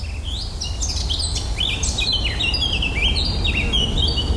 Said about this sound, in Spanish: Así suena un bosque de Nueva Inglaterra, noreste de los Estados Unidos.